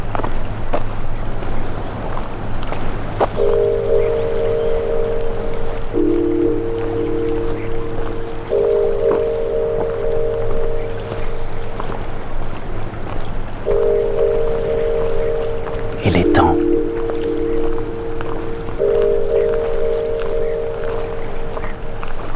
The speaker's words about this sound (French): La tramontane souffle.